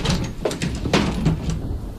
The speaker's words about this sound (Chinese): 安在天关上窗户转过身来